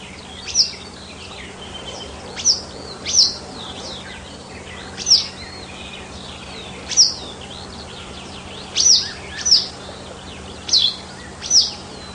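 Wagtails nesting under the eaves above a window chirp in about nine brief, high, bright calls, spaced irregularly over a steady low hum.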